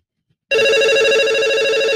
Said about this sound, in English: Ooh, that's loud. That's a phone call, though. Let's go ahead and answer that.